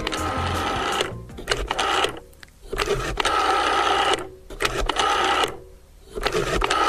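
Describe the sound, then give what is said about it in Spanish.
Mechanical whirring and clicking as a telephone number is dialed, in several rattling bursts separated by short pauses. “Vamos a empezar a marcar, ¿te parece?”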